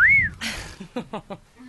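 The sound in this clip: A wolf whistle aimed at a woman: one short, clear tone that rises and then dips, followed by people talking.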